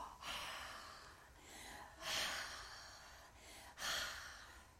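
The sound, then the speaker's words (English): Deep breaths taken before a vocal warm-up in which singers slide from very low to very high: three faint, airy rushes of breath, evenly spaced across a few seconds, with quiet between them. “Take a 3 deep breaths.”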